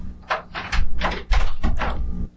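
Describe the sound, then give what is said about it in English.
A door is opened with a series of loud clattering, scraping bursts over about two seconds, then the sound stops abruptly. “Open the door! Who's in there? Who is it? Open the door, Susan!”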